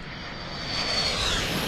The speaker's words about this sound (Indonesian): Kita nak terbang ke Thailand sebentar.